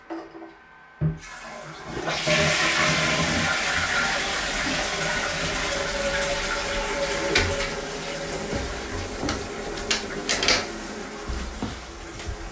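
A toilet being flushed: after a short quiet moment, a loud surge of rushing water sets in and keeps pouring steadily, with gurgling swells near the end.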